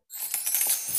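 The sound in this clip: Coins dropping and jingling: a brief, bright metallic clatter lasting under a second, high-pitched and without voices.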